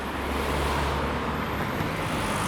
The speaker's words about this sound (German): Mein Gott, schau, ein Panzer.